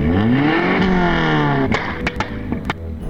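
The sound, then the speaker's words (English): A car engine with a backfiring carburetor runs with a rough, rumbling revving tone, then sharp, loud pops break through as the engine note drops away. “I hate backfiring carburetors.”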